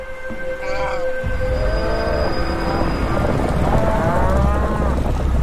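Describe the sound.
Moo-like grunts from a herd of wildebeest crossing the Mara River in the northern Serengeti: several overlapping, drawn-out calls with wavering pitch over a steady, broad rumbling background.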